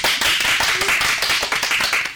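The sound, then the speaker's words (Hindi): Steady applause with dense, rapid clapping throughout, greeting a correct answer in a children's general-knowledge quiz, with no voices over it. “बिल्कुल सही जवाब, जोरदार तालियां हो जाए।”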